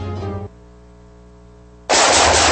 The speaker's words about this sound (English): nice shooting